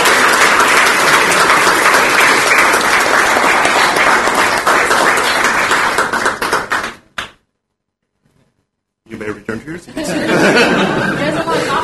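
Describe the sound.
An audience applauds as a college student government is introduced at a ceremony. Loud, sustained clapping runs for about seven seconds, then cuts to silence before sound resumes.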